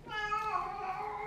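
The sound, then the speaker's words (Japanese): A cat meows in the distance, one faint, drawn-out call of about a second with a clear tonal, slightly wavering pitch, heard alone. “猫です。 遠くで猫が 鳴いております。”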